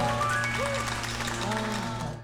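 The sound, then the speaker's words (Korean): Audience applause at a live event, a soft texture of many hands clapping under a voice and a steady tonal background. “여러분 박수 부탁드리겠습니다.”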